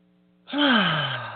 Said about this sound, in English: take in a deep breath